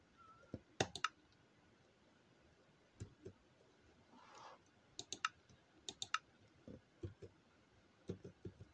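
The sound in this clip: Computer keyboard keys are pressed during a game, making many faint, sharp clicks that come in irregular clusters with short pauses between bursts.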